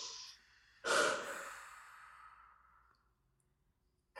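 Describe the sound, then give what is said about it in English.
A deep cleansing breath during a guided relaxation exercise: one long, soft exhale that swells quickly and then trails away slowly, with another breath just starting at the very end. “you take a few cleansing breaths.”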